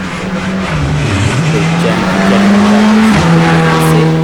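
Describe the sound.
Rally car engine roaring as it passes at speed on a Ligurian rally stage, a loud sustained drone whose pitch shifts and dips midway, then drops sharply near the end.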